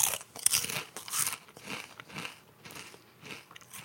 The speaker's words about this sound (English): So I got a chip with some hot sauce on it.